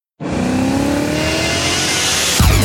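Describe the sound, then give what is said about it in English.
A BMW car with an automatic gearbox accelerates hard from a sudden start. Its engine note climbs steadily in pitch, then drops abruptly near the end as a gear change comes in. No voices are heard. “The new BMW Automatic, the ultimate driving machine.”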